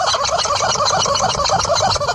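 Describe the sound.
A rubber chicken squeaks without pause as a horse shakes it hard, giving a loud, rapid, warbling squawk that sounds much like a gobbling turkey throughout.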